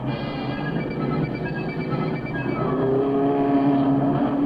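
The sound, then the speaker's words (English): Race cars roar around a speedway track late in a long race. A dense, continuous engine drone with a sustained tonal whine runs without a break and with no voices. “On the track, there's no let up after 2 hours of racing.”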